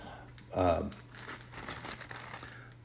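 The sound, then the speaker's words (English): Paper pages being flipped as a preacher searches his Bible for a note during a church sermon: soft, rustling crinkles over a low steady hum, with a brief bit of voice near the start. “Let me flip back there my note, brothers and sisters. I apologize. But I thought I had a marker there, and I do not.”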